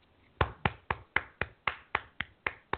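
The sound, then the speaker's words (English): Hand clapping in an even, unhurried rhythm: about ten crisp, fairly quiet claps, each sharp and short, with nothing else heard. “that's me clapping for you, Marty. I'm happy for you, brother.”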